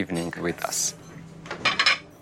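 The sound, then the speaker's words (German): Special plates and cutlery clinking as a table is set for a special evening: a few bright clatters and a ringing scrape of metal on china, with a brief voice at the start. “Wir decken besonders schön ein. Spezielle Teller, elegante Servietten, guter Wein.”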